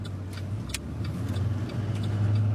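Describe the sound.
A car driving along back roads near Winslow toward a water treatment plant gives a steady, low engine hum and road rumble. It stays even and continuous throughout, with faint light clicks above it.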